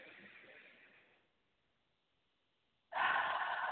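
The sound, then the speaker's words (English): A group breathes together during a church meditation. One long, soft breath fades away into near silence, then another, louder breath starts abruptly and carries on to the end. “Breathe, family.”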